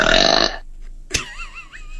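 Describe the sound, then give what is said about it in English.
A dog burps: one loud, rough belch lasting about half a second. After it come quieter sounds, a brief sharp click and faint, wavering high tones. “She burped in my face.”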